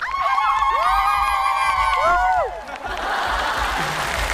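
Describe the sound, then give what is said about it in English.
An audience makes a South African celebratory sound, high wavering ululating voices trilling together for a couple of seconds, then a brief dip and broad cheering and applause. “This is a sound that we make in South Africa when there's a celebration, when we're happy, when there is good news.”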